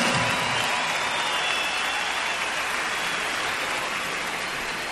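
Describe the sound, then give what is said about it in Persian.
Audience applause for an orchestra conductor at a concert: a steady, dense wash of clapping throughout, with no break. “به افتخارشون یه دست خیلی خیلی محکم تقاضا میکنم.”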